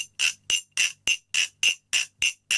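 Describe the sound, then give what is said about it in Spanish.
Nine evenly spaced strikes on a glass bottle played as percussion, each a bright ringing clink with a quick decay, while the holding hand alternates between closed and open to change the tone's brightness. “Lo que estoy haciendo es cerrar y abrir la mano a la hora de aguantar la botella. Mano cerrada, mano abierta.”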